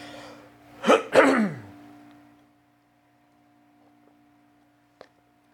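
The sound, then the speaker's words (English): Throat clearing from a person who stops mid-sentence, heard as two rough, throaty bursts in quick succession, followed by quiet with a faint click near the end. “Let me clear my throat.”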